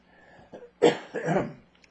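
Coughing after something went down the throat the wrong way: two quiet, rough coughs follow a short breathy lead-in, close together and with no talk over them.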